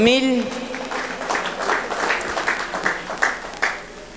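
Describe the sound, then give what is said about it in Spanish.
Applause for the outgoing church brotherhoods (cofradías) at a religious festival: a voice speaks briefly at the start, then scattered hand claps continue at moderate volume and fade toward the end. “Fuertes aplausos a los salientes cofradías de”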